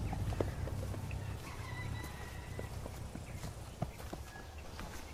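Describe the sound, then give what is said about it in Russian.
Faint hoofbeats from a white horse led by its bridle by a village woman along a village street. Soft, irregular clopping steps with a few sharper knocks. “Деревенская женщина ведет под уздцы белую лошадь.”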